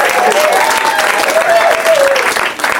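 A live audience at the UCB Theater in Los Angeles applauds and cheers, with dense, loud, continuous clapping that holds steady and eases slightly at the end.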